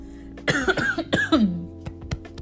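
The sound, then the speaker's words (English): A person coughs a few times in quick succession. The coughs are harsh, rough-edged bursts, and a fainter one follows after a short pause. “I'm starting to cough now.”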